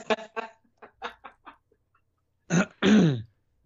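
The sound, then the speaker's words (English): A man clears his throat with a few short, soft rasps, then two louder, rough, gravelly bursts, the last one longest and voiced. “Oh, God, he cleared his throat”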